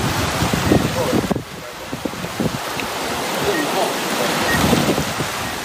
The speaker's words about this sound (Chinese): 南定岛周边水下暗礁无处不在，而且风大浪急。